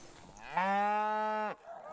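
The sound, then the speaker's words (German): A dairy cow, part of a herd moving onto fresh pasture, gives one loud, sustained moo of about a second that drops off at the end, with faint background noise and no talk. “Die Milchkühe ziehen sofort auf die neue Weide.”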